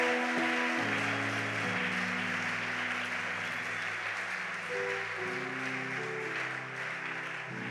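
A church audience claps and cheers for the Lord: dense, continuous applause fills the whole clip at a fairly low level, with sustained low musical tones shifting beneath it.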